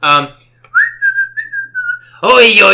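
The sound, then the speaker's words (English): A person whistles on a boat while lowering the anchor: one sustained mid-pitched tune with slight wavers and brief breaks, with a person talking just before and just after. “As soon as I do that, I start singing, kind of singing, whistling.”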